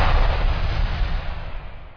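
Firecrackers exploding as a sound effect in a Diwali fireworks ad, heard as a dense, continuous low rumble of blasts that stays heavy and slowly thins out by the end.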